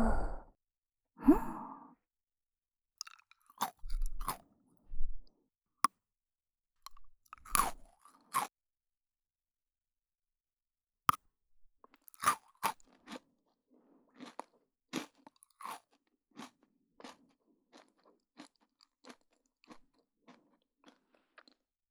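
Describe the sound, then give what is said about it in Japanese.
Crisp crunching and chewing of chocolate-coated Pocky biscuit sticks, opening with a couple of breathy sighs, then many short, sharp bites and crunches in an irregular rhythm, with no talk. “美味しいだけがポッキーじゃない、レッツポッキー ASMR。”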